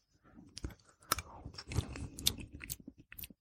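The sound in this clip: Chewing and crunching as someone tastes a dish made with paprika and lemon: irregular, fairly faint bites and wet mouth sounds in quick succession, with no talking.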